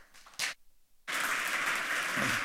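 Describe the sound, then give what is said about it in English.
Audience applause greets a speaker at a hacker conference talk: a short burst of clapping, a brief pause, then loud, steady applause that carries through to the end with no talk. “Give a warm applause to Tim.”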